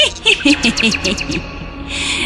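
A nightingale singing in a quick series of high, bright chirps and short trills, loud and closely spaced, fading into a softer hiss at the end.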